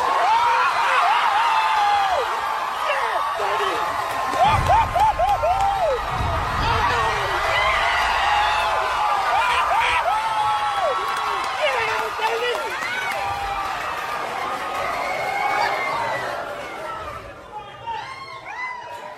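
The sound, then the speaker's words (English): A packed movie theater audience cheers as Marvel heroes arrive on screen, with many overlapping voices shouting and whooping loudly and continuously before the noise thins out near the end. “but slowly, all the heroes of the entire Marvel Universe come to the rescue, one by one. No way! And the audience just goes wild.”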